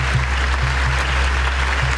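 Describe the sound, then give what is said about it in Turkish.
Sustained applause from an audience at the Venice International Film Festival premiere of a documentary, a dense, steady wash of clapping with an even loudness throughout and a low hum underneath. “Alkış sesleri 25 dakika boyunca susmadı. Venedik Film Festivali'nde tarihi anlar yaşandı.”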